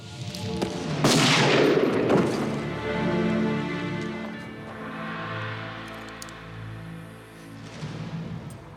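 A gunshot in a film scene: one sharp, loud crack near the start that decays into a lingering rumbling tail.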